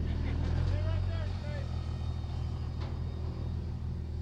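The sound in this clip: A racing motorboat engine runs at full throttle, giving a loud, steady, deep rumble that fills the whole clip with a slightly wavering pitch.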